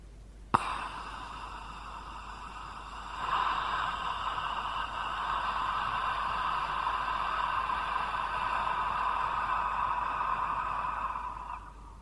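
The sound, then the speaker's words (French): A long, quiet exhaled breath shaped like an open 'ah' vowel: an unvoiced, breathy hiss holding steady for about eight seconds after a brief click at the start. “j'imagine l'ouverture en faisant un A avec le souffle. Je vous fais écouter.”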